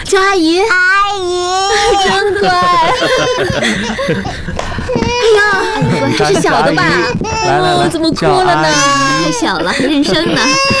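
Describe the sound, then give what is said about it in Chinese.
A small child cries in a high, wavering wail that is loudest near the start, while adult voices talk and laugh around it throughout. “这是小的吧？ 来来来， 怎么哭了呢？ 太小了，认生呢。”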